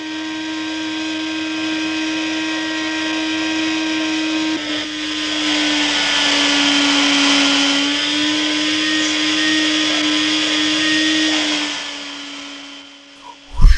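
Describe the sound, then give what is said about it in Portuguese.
A vacuum cleaner runs in a house, a steady droning motor whine that holds almost unchanged for the whole stretch, with no voices, before cutting off near the end. “Primeira entrada na casa, a gente escuta o aspirador, né?”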